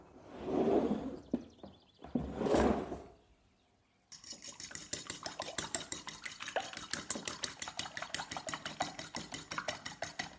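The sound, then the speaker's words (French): A fork beats eggs in a bowl during baking prep, a fast, steady run of light metallic clinks and taps that keeps going for several seconds, preceded by a few brief rustling bursts. “Dès que j'ai fini de casser les œufs, je me lave les mains, ça doit être un réflexe, toujours pour les histoires d'hygiène. Je bats la fourchette,”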